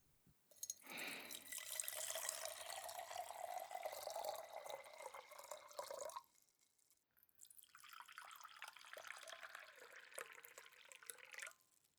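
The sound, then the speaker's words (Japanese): Hot water splashes and trickles as it is poured to warm a teapot and cups. Two long, steady pours are split by a short silent pause, and the second pour is slightly softer. “まずこのようにティーポットとカップをお湯で温めます。”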